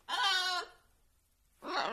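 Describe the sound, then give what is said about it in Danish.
A three-year-old African grey parrot calls out twice, a longer harmonic squawk followed after a short pause by a briefer, rougher one, with no talk around it. “Det er Sorba. Hej, Sorba. Dit papegøje. Nå. Du er kommet hjem igen. Det var godt. Hva? Din flotte, grå, afrikanske, treårige papegøje.”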